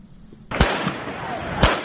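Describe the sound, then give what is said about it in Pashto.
Gunfire by security forces during street protests in Pakistan-administered Jammu and Kashmir: two sharp, loud reports cut through a constant rough background noise. “دا د هغو ډزو اوازونه دي چې امنیتي ځواکونه یې د پاکستان تر ادارې لاندې جموں کشمیر کې د خلکو د مظاهرو په وخت کوي.”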